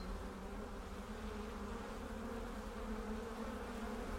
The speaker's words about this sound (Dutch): Dit zijn mijn twee volkjes, ja. Een groot volk en een wat kleiner volk. Dus je bent een imker? Imker, ja. In deze kast zitten misschien 50.000 tot 60.000 bijen.